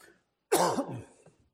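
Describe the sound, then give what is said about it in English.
A lingering cough that has persisted since a bout of COVID: one throaty, rasping cough that starts suddenly after silence, then trails into a fainter, gravelly tail with a small catch at the end. “One of these days, I'm going to get rid of this cough probably when I go to heaven.”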